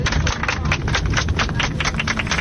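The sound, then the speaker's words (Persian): A crowd of women applauding in honour of women on International Women's Day, 8 March, in metro corridors: a dense, continuous patter of many hands clapping quickly, fairly loud throughout. “به افتخار خودتون که تمام زندگیتون با انواع تبعیض و خشونت و تحقیر و توهین مبارزه کردین. هر هزینه‌ای که میتونستید دادید و قهرمان زندگی خودتون بودید. لطفاً دست بزنید.”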